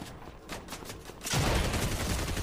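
Gunfire in a video game: a quick string of rapid shots, then a louder, denser burst of firing that carries on to the end.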